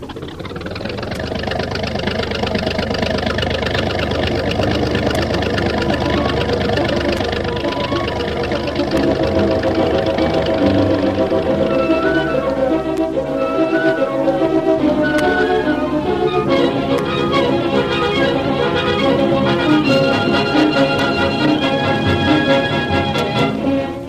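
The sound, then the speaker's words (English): Tank squadron engines rumble forward in a radio drama effect, a dense, steady low drone that holds at full loudness throughout with no pause. “Tank ZX-7, 8, and 10, left wing formation. Machine gunners to their posts. Searchlights darkened and ready for action. That is all. Tank squadron forward.”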